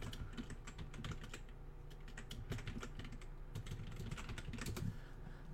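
Faint typing on a computer keyboard: many quick, light key clicks in a steady, continuous patter with no talk over them.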